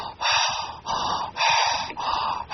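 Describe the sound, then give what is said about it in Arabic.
A voice imitates the death rattle of a dying person: a steady rhythm of about five rasping, gurgling breaths, each a harsh throaty snore-like pull separated by brief gaps. “أحيانا بعض الناس عند الموت تأتيه ما يسمى بسكرات الموت أو شحارة الموت، هكذا”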